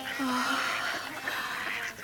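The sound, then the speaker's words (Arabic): Quail call with a few short, nasal, squawking notes over a soft, steady background. “انظري، انظري إلى هذه الطيور الجميلة. إنها طيور السلوى، رزق بني إسرائيل.”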